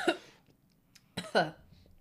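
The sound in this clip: Coughing after a drink went down the wrong way and burned the throat: a few short, throaty, faint bursts spaced apart, the last two close together.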